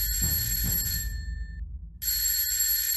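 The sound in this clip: An alarm clock rings with a high, steady, bell-like tone in two bursts separated by a short quiet gap.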